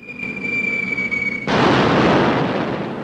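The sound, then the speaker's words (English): A falling bomb whistles during an air raid, a steady high whine for about a second and a half, then abruptly replaced by a loud, sustained roaring blast. “Everyone waits with bated breath to see where the next bomb will land.”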